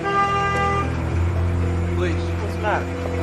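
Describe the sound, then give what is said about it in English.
A van pulls away with a steady, droning engine whose tone shifts partway through, while people talk over it. “The van pulled away, but the police stopped it just around the corner.”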